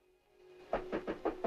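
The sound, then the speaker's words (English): Knocking on a doctor's office door off a wood-panelled corridor: five fairly even raps after a quiet lead-in, over a faint steady hum. “She nods, and he knocks on the door.”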